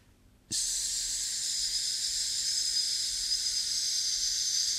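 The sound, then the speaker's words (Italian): A long, sustained 'sss' hiss is breathed out as a voice warm-up exercise. It starts abruptly and stays steady and even in strength for more than four seconds, with no break. “Altri esercizi possono essere, per esempio, di tenere una S a lungo sul fiato prima di iniziare magari una trasmissione.”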